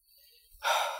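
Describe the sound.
One deep breath, faint and airy at first, then swelling into a loud breathy rush of air in the second half.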